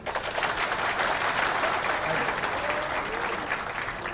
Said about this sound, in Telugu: ఇందుకే చప్పట్లు దేనికి కొట్టారు అంటే ఆ వచనం చదివినందుక